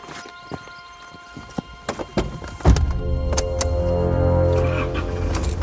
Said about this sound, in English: now we've got a Jeep